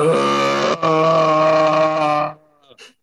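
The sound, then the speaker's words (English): A person lets out a long, continuous guttural groan while bending down to tie shoes. The groan is loud and tonal, held for over two seconds with one brief catch, then a faint short grunt follows. “I also can't tie my shoes without letting out a single guttural continuous groan.”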